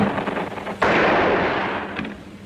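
Gunfire on a battlefield just before an armistice: a rough rumbling of shots, then a sudden loud blast that decays into a long roar, with a fainter report near the end.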